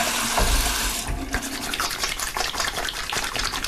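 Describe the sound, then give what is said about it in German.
Hands are washed under a running tap, with a steady rush of faucet water that shifts into softer splashing and trickling as the hands move through the stream. “Hände waschen”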